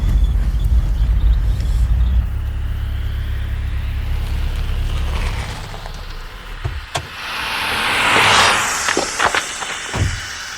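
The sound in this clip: A car pulls over to the side of the road. A steady low engine rumble fills the first half, then eases off, followed by a few sharp clicks and a brief rushing sound.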